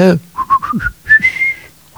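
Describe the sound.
A person whistles a tune inside a Russian home: a quick run of short notes, then one long held note slightly higher, with a brief voice at the start.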